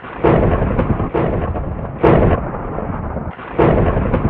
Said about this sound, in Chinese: 又有一日，雷声大作，